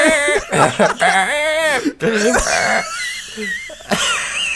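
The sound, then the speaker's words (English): A voice imitates the heavy, wheezing breathing of a very fat man whose lungs are collapsed by fat: loud, strained, raspy voiced breaths and groans that waver in pitch, repeated several times with a brief break midway. “he's just like breathing real heavy because his like lungs are just like collapsed with the just disgusting fat that has surrounded them.”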